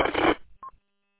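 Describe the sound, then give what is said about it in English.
A beep over a radio hub signalling that a machine is in use: a burst of harsh static, then a single short mid-pitched tone, followed by silence. “whenever somebody uses that machine, you get that beep over the hub. So you can tell you're on that machine.”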